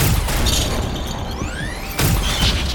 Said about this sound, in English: Got a little close with that blast there, friend.